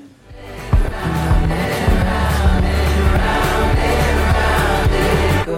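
A pop single plays continuously with a steady driving beat, full instrumentation and a dense, heavily compressed mix that pumps audibly, loud throughout with no talking over it.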